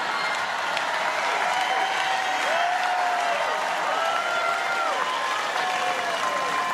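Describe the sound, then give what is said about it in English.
Political supporters at a rally in Florida cheer and applaud loudly. Clapping and shouting voices merge into a dense, continuous roar that stays loud throughout. “That's the sound of President Trump supporters loudly cheering the idea of shooting at migrants at a rally in Florida on Wednesday.”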